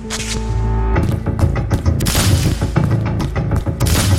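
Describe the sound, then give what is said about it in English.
Gunfire in a dramatized shootout in which a bullet strikes a man in the chest: a heavy boom about a second in, followed by dense, loud, repeated blasts and impacts. “The first bullet hits me in the chest, sends me staggering back a step.”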